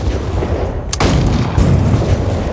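Bombs fired and exploding in a video game: one sharp, loud blast rises out of a constant roaring rumble that stays heavy throughout.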